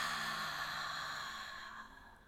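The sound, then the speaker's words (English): A deep breath slowly exhaled during a guided breathing exercise: a soft, airy rush of breath that fades steadily over about two seconds, with no talking. “So let's take one more deep breath in, saying thank you to Mother Earth. And release it.”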